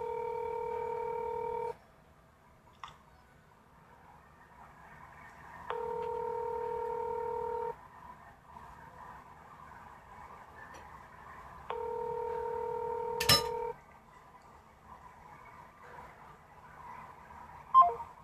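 Telephone keypad tones as a caller dials out: three long, steady two-tone beeps separated by pauses of a few seconds, over a faint low hum, with a brief click near the end.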